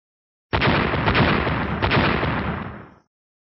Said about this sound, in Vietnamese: Trong thế giới Tang Tương vang vọng ba tiếng nổ